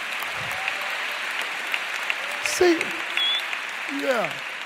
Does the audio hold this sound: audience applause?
yes